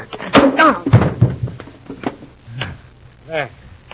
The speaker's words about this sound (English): I'll fix him. This chair will slow him